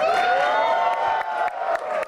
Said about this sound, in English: As the lights dim, the crowd goes quiet. All right, ladies and gentlemen, please welcome Veer Das. And then erupts in cheers.